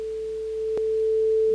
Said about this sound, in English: This is a digitally created tone. And the click at the end of this is just sort of to indicate the actual loop point.